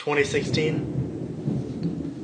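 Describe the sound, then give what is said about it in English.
Thunder from a thunderstorm rolls as a low, continuous rumble, with a voice heard briefly at the start before the deep grumbling carries on alone at a steady level. “A thunderstorm's a-brewing outside, and a thunderstorm is a-brewing inside.”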